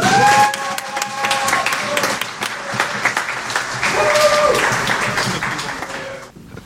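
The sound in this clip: An audience applauds to welcome a speaker before the final carol at an afternoon Christmas service. Lively clapping runs throughout with some voices mixed in, then dies away at the end.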